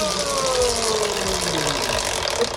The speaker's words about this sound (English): let's spin the wheel. Do you want a big spin or a little spin? Big spin.